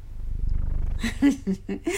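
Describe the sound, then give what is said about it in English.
A pet cat purring, a low rapid pulsing rumble that fills the first second, followed by a few brief, louder sounds over the fading purr. “Oh, look who's here. Who? Cleo. Nice kitty.”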